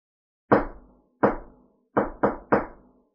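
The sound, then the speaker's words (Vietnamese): Knocking on a courtyard door: five sharp wooden raps, two spaced slowly, then three in quicker succession, each ringing out briefly in otherwise silent surroundings. “Hầu Tế Lôi tiến đến gõ cửa, Thạch Mục lững thững theo sau.”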